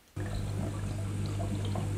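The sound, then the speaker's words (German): Filtered saltwater splashes into four large oyster tanks in a factory hall in Wiggensbach near Kempten, while circulation pumps hum low and steady. The sound starts abruptly after a brief quiet moment and then runs on continuously. “Umwälzpumpen surren, gefiltertes Wasser plätschert in vier große Wassertanks.”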